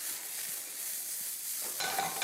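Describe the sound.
Steady sizzling hiss of mushrooms sautéing in a pan as capia pepper and garlic are added. The fry hums evenly at first, then flares into a louder, crackling burst near the end.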